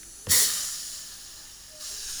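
Hissing from a home soda maker carbonating water under pressure: a sharp burst of hiss that slowly tapers off over more than a second, then a second, softer hiss begins.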